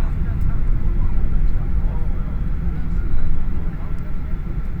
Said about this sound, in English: welcome to Charles de Gaulle International Airport in Paris. It's a safety requirement that you remain seated until the aircraft comes to a complete stop and the seatbelt sign has been switched off.